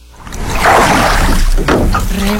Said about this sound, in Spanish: Rema tu bote. Qué chido se escucha, ¿verdad? Es remando.